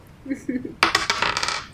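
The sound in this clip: Dice rolled on a table during a House of Danger tabletop game: a quick burst of bright, hard clattering knocks tumbling over under a second, then settling into faint rattles.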